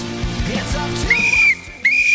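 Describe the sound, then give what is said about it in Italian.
A person whistling two steady, high held notes, the first slightly longer than the second, loud over a low, pulsing hum. “Adesso fischia pure. Fischia.”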